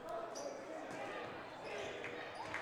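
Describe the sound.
A basketball is dribbled on the court during a boys' high school game between Exeter and Daniel Boone, several quick bounces thudding under a commentator's voice and crowd noise.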